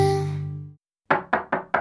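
Four sharp, evenly spaced knocks on a door follow a sustained tone that fades out. The raps are crisp and loud, with quick decays, and no talk is heard.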